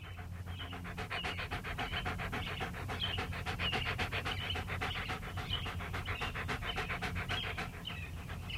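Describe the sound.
A dog pants rapidly and steadily, a continuous run of many quick, breathy in-and-out puffs that keep an even rhythm throughout, with no voices.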